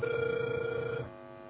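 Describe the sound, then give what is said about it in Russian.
A telephone ringback tone plays while a call connects: one steady, fairly faint electronic tone holds for about a second and then stops. “Абонент еще не взял трубку. Пока продолжается дозвон”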